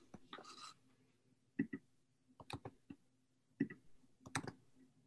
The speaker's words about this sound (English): I could hear you click, and when you click, I could see it move. See me click? I see you click.